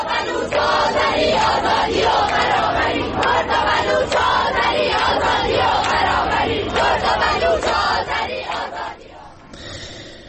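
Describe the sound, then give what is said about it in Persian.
A large crowd of students chants slogans at a university protest rally in Iran, including at a medical sciences university in Kurdistan. Massed voices shout loudly in rhythmic bursts throughout, then ease off briefly near the end. “صدای تجمع‌های اعتراضی دانشجویان در چندین دانشگاه ایران را روز دوشنبه می‌شنیدید”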